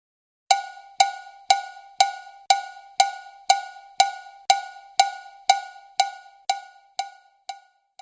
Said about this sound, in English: the timbalero marks out a basic beat of steady quarter notes in a 4-beat meter on a small cowbell, like this.